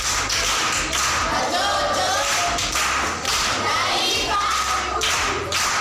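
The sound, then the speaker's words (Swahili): An audience claps for an aunt in loud, steady, rhythmic unison, each beat landing as a heavy thudding clap that repeats throughout. “Makofi kwa shangazi.”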